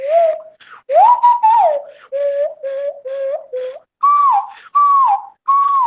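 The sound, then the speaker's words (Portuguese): Whistling notes from an indigenous Amazonian whistle used to communicate with birds and small game: many short, clear, mid-pitched tones, some gliding upward, played in a quick, uneven sequence with brief gaps. “Autômato, e eu utilizo esse apito, um apito indígena da Amazônia, que serve para se comunicar com os pássaros, com as aves, com pequenas caças”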